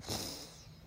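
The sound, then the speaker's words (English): A single deep inhale drawn in through the nose as a calm breathing exercise begins, a brief, faint, airy rush that swells quickly and then tapers off, heard alone without talk. “let's take a deep breath through our nose.”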